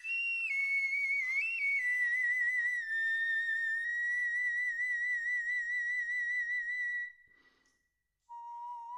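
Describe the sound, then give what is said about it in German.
A bone flute plays a sustained, breathy high tone with a slightly wavering pitch that settles and holds steady. After a brief silence, a single lower note sounds at the end. “Und so eine Knochenflöte, die hören wir jetzt gleich mal.”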